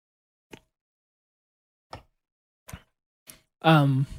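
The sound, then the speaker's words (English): A few sharp, isolated clicks and pops from a can of strawberry Red Zone drink being cracked open, spaced irregularly, then a short burst of voice at the end. “Drinking a Red Zone tonight. It's the strawberry flavor. I'll crack that open here.”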